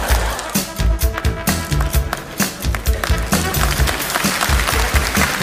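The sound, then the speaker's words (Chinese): Scattered, half-hearted clapping from a studio audience at a taped Cantonese comedy storytelling session, a loose patter of hands with a low rumble beneath, steady in level without building to a strong ovation. “喂，以后咁勉强就唔好拍手啦吓”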